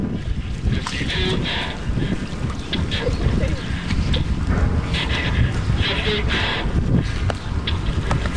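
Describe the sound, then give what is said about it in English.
Sloshing water and rough mechanical creaking as someone operates a working replica of the Turtle submarine in the Mystic River, Connecticut, during a 2008 Navy test; the noise is continuous and busy. “That's the sound of someone driving a working replica of the turtle. It's from 2008, when Roy and his colleagues in the Navy tested a working replica of the turtle in the Mystic River in Connecticut.”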